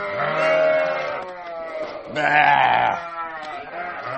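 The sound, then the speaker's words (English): Lambs bleating in an old wooden barn, several loud, wavering, high bleats following one another and overlapping, with hardly a pause between calls. “You wanted to see lambs, and here are some lambs.”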